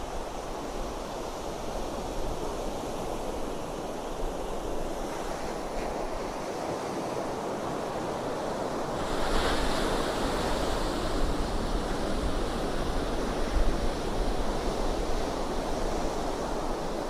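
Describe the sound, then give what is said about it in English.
Pacific Ocean waves break on shore in a continuous broad wash of surf mixed with wind noise. The sound stays steady throughout, swells slightly midway and carries no voices. “Just listen to the sounds of the Pacific Ocean.”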